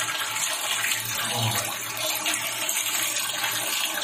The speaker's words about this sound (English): Water filling up.